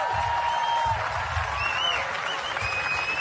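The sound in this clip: An audience at a live evening event in Darwin, on Larrakia country, applauds the Red Flag dancers with dense, steady clapping that stays loud and even throughout.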